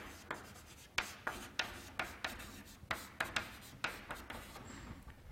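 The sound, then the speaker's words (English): Writing on a board during a physics lecture produces many faint, short scratching strokes in an uneven rhythm, with no talk. “Let's write it down.”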